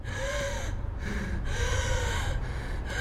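A woman gasps and struggles for breath: a run of loud, strained, wheezy breaths follows one after another with no pause, as she limps out of an elevator.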